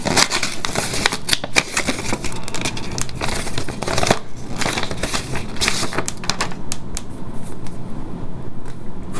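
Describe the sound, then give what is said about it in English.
Paper rustling and crinkling as a letter envelope is opened and handled, a busy, continuous crackle of sheets being pulled and shuffled that keeps going throughout without speech. “I'm opening this letter.”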